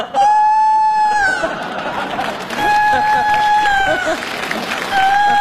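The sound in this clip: Rooster crowing in a comedy scene: a few drawn-out, steady crows over constant crowd noise, chatter and bursts of audience reaction.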